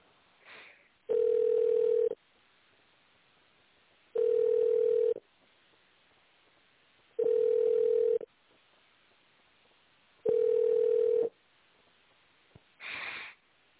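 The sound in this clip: Telephone ringback tone plays while a call is transferred: four steady, mid-pitched tone bursts, each about a second long, separated by pauses of about two seconds. A short click follows near the end.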